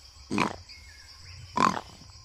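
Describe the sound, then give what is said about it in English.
A person imitates the snorting of a wild boar in the woods with two short, breathy, rough snorts about a second apart. Each is moderately loud against a quiet background. “Sounds like a boar. Not quite boorish. My snorting is not so good that I can imitate specific animals with it.”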